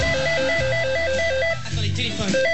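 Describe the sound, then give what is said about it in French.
An electronic telephone rings with a rapid warbling two-tone trill, repeating steadily under voices talking, then breaks off briefly before resuming near the end. “téléphone. Si c'est le Trabendo, il va m'entendre.”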